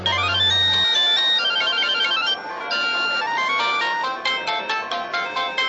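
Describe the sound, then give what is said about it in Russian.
A mobile phone rings inside a woman's bag: a loud, melodic ringtone of many quick notes that plays on its own with no talk. “Так бы и прошла женщина мимо, да зазвонил у нее в сумке телефон мобильный.”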